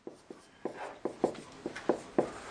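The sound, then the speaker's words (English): Someone writes on a board during a class, producing a quick series of sharp taps and short scratchy strokes in an uneven rhythm, each stroke clear and crisp, with no talking. “Now listen, there is this, I'm going to write this up to here again.”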